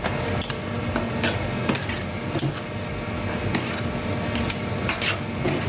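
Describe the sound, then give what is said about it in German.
Steady mechanical churning of an ice cream machine running, a dense, even whir with faint irregular clicks and knocks throughout and no voices. “Das ist eine Eismaschine.”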